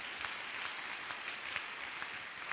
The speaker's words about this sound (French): Est-ce qu'on peut acclamer le Seigneur Jésus?